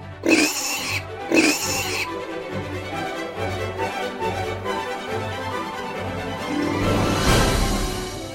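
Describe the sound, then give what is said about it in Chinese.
A piglet oinks with two short, high-pitched squealing bursts near the start. Softer, rougher sounds follow over a steady tonal background that swells toward the end. “她真的没看错，她怀中所抱的真的是一头小猪。”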